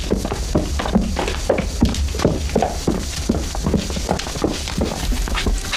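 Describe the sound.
Hooves clip-clop as a horse is led in a Chinese film scene, giving many steady, evenly spaced hoof strikes at a moderate level.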